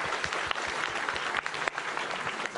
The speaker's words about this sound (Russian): Давайте похлопаем, да, и удачи.